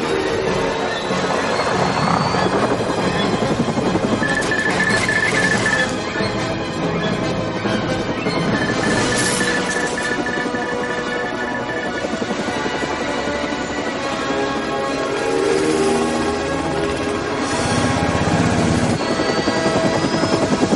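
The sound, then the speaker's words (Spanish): A helicopter in a film action scene loses altitude after its fuselage is shot, its rotor and engine roaring loudly and continuously throughout with slight swells in intensity. “Dispara al fuselaje. El aparato pierde altura. Neo agarra a Morfeo y sujeta el cabo que le une al helicóptero.”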